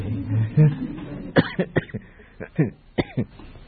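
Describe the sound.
Coughing and throat clearing from a speaker during a Buddhist dharma talk: several short, rough bursts in quick, uneven succession, with bits of voice mixed in.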